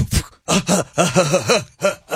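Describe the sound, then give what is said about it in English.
Vocal beatboxing, with a person imitating drum sounds using the mouth: many punchy voiced bursts in a quick, fairly steady rhythm, some carrying a humming, pitched tone, loud and alone. “That was my beatbox. That's good. I thought you were running out of breath.”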